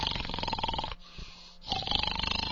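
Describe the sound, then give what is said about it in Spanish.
A voice imitates snoring in a classic pig style: two long, rough, buzzy snorts separated by a brief quiet pause, loud and grunting with a pulsing texture. “Manuel era campeón olímpico de ronquidos y esa noche me lo demostró aleque brillantemente. Lo sacó de todas clases, estilo cochino clásico,”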